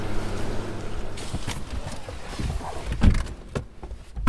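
People climb into a car, with a few dull door thumps and rustling over a low rumbling background.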